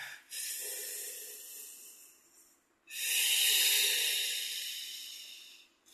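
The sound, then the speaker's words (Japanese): A deep breath taken during a short stretching break: a long, airy inhale of about two and a half seconds, then a louder, sustained exhale that slowly fades, with no talk. “はい、深呼吸。”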